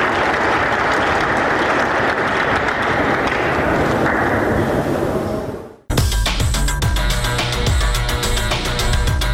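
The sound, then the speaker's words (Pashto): Dense, loud applause from an audience at sports demonstrations by young people and children, a steady wash of clapping for several seconds that fades briefly and then gives way abruptly to a different, tonal sound. “په اخیر کې ځوانانو او تنکیو ماشومانو د ورزش په برخه کې خپل نمایشات هم وړاندې کړل چې په چکچکو بدرګه کېدل.”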